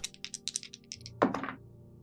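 Two six-sided dice are rolled in a tabletop role-playing game: a quick run of light clicks, then a sharper crack and a few fading knocks as they settle.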